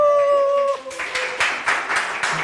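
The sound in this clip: Audience whoops and cheers at a live public recording of a radio show in a museum during a comics festival in Delémont. A long, drawn-out whooping cry gives way to a few loud bursts of clapping and shouts.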